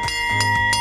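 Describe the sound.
Bell of an ice cream van on a summer delivery round. It rings three bright strikes in quick succession, each with a sustained metallic tone, loud and alone.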